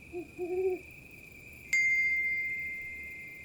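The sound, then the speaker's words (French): Owl hooting at dusk, a few soft, low hoots early on, then a bright ping that rings out and slowly fades over a steady high tone. “Le soleil disparaît lentement derrière les collines, laissant la place à l'œil rond et jaune de la chouette qui s'éveille.”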